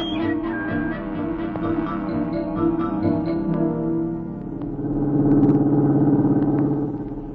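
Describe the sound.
A car drives along with a steady, low engine rumble that swells louder partway through and then holds, with no talking over it.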